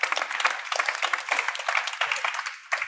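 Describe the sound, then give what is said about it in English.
Audience applause welcoming a speaker: a steady, dense patter of many hands clapping together, moderately loud and unbroken for the whole short stretch, with no voices standing out. “Please give a big hand. Welcome to Thomas Stellmach.”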